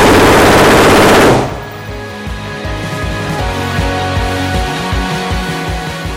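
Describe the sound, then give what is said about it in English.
An AR-15 rifle fired on full auto, a loud rapid burst of shots lasting about a second and a half, then a quieter, lower background rumble. “On the same day, the actors are taking turns firing an AR-15 on full auto. Step forward, lean against that table. There you go. You okay? Go ahead and pull the trigger and let go whenever it's time, all right?”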